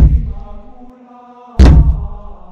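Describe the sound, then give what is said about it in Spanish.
A bat slamming hard into skeletons emerging from a wall: one loud, sharp thud with a brief ringing tail, preceded by a sustained low resonant tone. “Voy a golpearlo con mi bate.”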